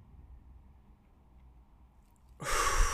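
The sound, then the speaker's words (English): A deep breath let out slowly through the mouth after being held, as part of an anger-control breathing exercise. Near silence gives way to a sudden loud, breathy rush of air in the final half second. “release through your mouth for 5 seconds, exhale”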